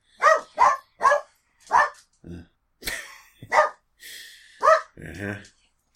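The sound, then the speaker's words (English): A dog barks in a series of sharp, loud bursts, with softer yelps and breathy sounds between them. The barks come in an irregular rhythm. “dog barking, kids yelling.”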